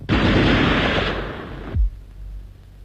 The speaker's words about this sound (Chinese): 等我出来，再不出来我就开枪了。